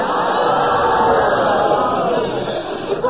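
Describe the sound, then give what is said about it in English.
A show audience shouts and calls out together in support of a contestant. The loud, sustained mass of voices holds steady, then thins out slightly near the end. “We're all on his side. You don't have to shout for him like that.”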